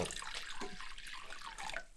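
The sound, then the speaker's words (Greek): Lukewarm water is poured into fritter batter, a faint, soft, continuous trickle and splash with no voices. “Χλιαρό το νερό. Λίγο χλιαρό νερό. Έτσι.”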